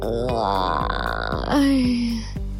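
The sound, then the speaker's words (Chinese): A drawn-out voiced yawn from someone just woken early and getting out of bed: a rising, moaning stretch that drops into a lower, sustained groan-like tone. It is loud over a steady, pulsing background beat. “被阿布吵醒的端端只能无奈地边打哈欠”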